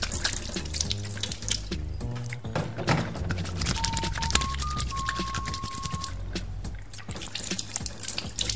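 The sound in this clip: Water pours and splashes as hands are washed with soap from a bucket, the trickling and dripping running continuously beneath background music.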